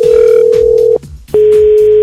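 A telephone ringing out on a call just dialed, heard as a loud, steady mid-pitched ringing tone in two long beeps separated by a short gap, with no voices.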